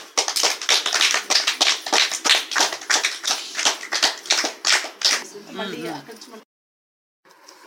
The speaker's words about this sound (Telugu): Okay, let's clap each other.